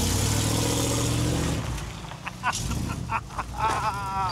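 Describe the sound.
A vehicle engine pulls away, a loud, steady low drone with a humming tone for about a second and a half that then drops off abruptly. Scattered clatter and brief voices follow.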